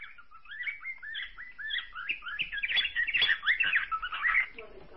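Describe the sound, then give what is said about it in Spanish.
A budgerigar calls with rapid warbling chirps and squeaky chatter that run continuously for several seconds. The calls are fairly soft and grow busier toward the end. “Ese es el periquito australiano.”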